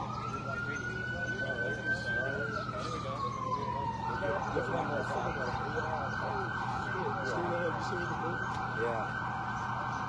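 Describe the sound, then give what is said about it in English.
A siren wails from a Bearcat armored police vehicle during an armed standoff. A smooth tone rises, then glides down, then switches to a rapid, steady warbling yelp, loud over a constant low engine hum. “That's the Bearcat making that noise.”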